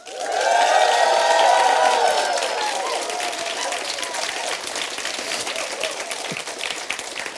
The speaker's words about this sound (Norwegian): Live fra Alta stadion. Ja, det høres sånn ut. 10.000 mennesker.